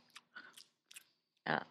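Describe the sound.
Peanuts being eaten close to a microphone, with a few crisp, crunchy bites and chews separated by short silences, the last crunch the loudest and fullest.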